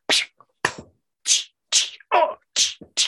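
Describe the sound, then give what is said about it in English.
1960s-style punch and slap sound effects crack through a fight sequence: about seven sharp, loud whacks in an uneven rhythm, with short silences between them. “the fight sequences with the 1960s sound effects as people get punched and slapped”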